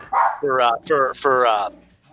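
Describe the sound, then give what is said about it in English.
A dog at the end of the block barking frantically, with a few drawn-out, harmonic barks or yelps in quick succession, loud at first and then fading. “It's a dog at the end of the block going absolutely nuts”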